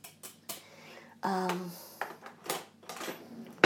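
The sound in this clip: Kitchen utensils, a measuring spoon and a whisk with a little spring on the end, are handled in a few sharp clinks and clacks of fairly loud metal clatter, with brief pauses between them.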